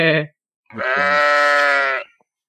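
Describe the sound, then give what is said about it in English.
A person imitates a sheep's bleat, first with a short nasal bleat, then after a brief pause with a longer, wavering bleat held for over a second, loud and clear. “I'm gonna go with the sheep noises because I've got an 8-month-old baby and I'm doing them anyway every day.”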